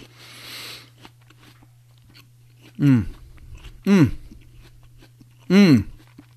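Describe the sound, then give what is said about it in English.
Three crisp, loud bites into a Gala apple, spaced a second or more apart, with quieter chewing in between and a steady low hum underneath. “I'm also going to enjoy an apple, because they're delicious. Well, this one is the Gala apple.”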